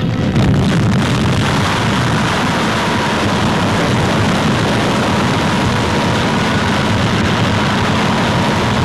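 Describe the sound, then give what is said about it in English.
A thermonuclear bomb detonation, a 10-megaton hydrogen weapon dropped from a high-flying bomber and exploding at 15,000 feet, heard as a loud, sustained, broad roar and rumble that stays steady for the whole stretch. “Brighter than 500 suns, America's most highly developed thermonuclear weapon. A detonation equal in force to 10 million tons of TNT.”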